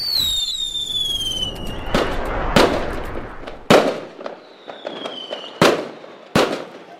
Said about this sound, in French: C'est la fin du feu d'artifice, donc je suis avec des amis et on doit assister à un concert de musique.